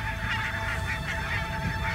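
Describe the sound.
Geese honk continuously as a flock flies low overhead into a saltwater lake on a marshland bird-watching trip, many overlapping calls forming a dense, fairly faint chorus with no voices.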